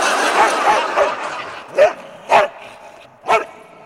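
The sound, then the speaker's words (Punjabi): A dog barks: several softer yips come first, then three loud, sharp barks spaced out with short gaps, standing clear with no talk over them. “Wow कितना प्यारा doggy है।”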